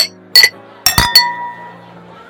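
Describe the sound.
Glasses clink together in a toast. A few sharp, bright chinks come in quick succession, each with a clear ringing tail that fades slowly. Quiet stretches fall between the strikes.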